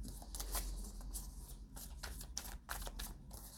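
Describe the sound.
Tarot cards are shuffled and handled while a card is drawn, making a quiet run of quick, papery riffling flicks and soft slides in irregular bursts. No one speaks.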